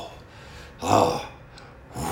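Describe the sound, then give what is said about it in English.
One deep breath, a breathy rush lasting about half a second and rising out of quiet background, followed by a softer breath near the end. “Deep breath.”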